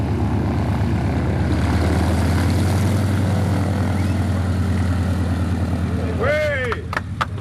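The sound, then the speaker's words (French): A small propeller airplane landing at Tarfaya, its engine a loud, steady droning hum with a low rumbling throb that holds throughout and eases slightly near the end. “la Fondation Antoine de Saint-Exupéry ben c'est l'équipage Syntex qui euh, vient de se poser à Tarfaya 100 ans après Antoine Saint-Exupéry”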